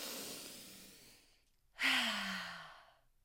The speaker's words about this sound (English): And here I am taking deep ass breaths.